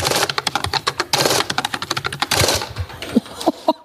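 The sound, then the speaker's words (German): Fast typing of numbers on a keyboard: a dense, rapid run of sharp key clicks with one brief break, loud and with no talk. “Du tippst ja wie eine Weltmeisterin. Ich bin beeindruckt und das sind auch immer die richtigen Zahlen.”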